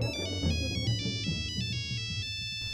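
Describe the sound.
An electronic phone ringtone signals an incoming call, a bright repeating melody of pulsing high tones over a low murmur that cuts off just before the end.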